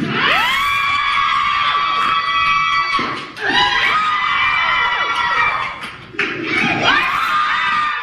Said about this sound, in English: What is that cheering? That is a Las Vegas woman crushing three watermelons in 7.5 seconds with her thighs, making it a world record.